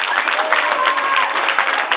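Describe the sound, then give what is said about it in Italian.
Crowd applause at an Italian mayoral election rally as the next speaker is welcomed: a continuous, even wash of clapping with a dull, muffled tone and a few voices mixed in. “a Nicola, fatemela passare l'allergia con un applauso, Nicola Cipro.”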